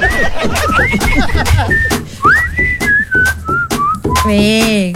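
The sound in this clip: An elderly man of about 75 whistles a tune in clear, sustained high notes that step up and down, with talk and chuckling in the first seconds, ending on a long wavering note.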